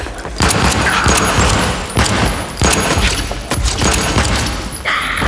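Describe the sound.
Gunshots fired at attackers ring out as a few sharp, loud bangs spread across several seconds, each over a dense, rumbling background.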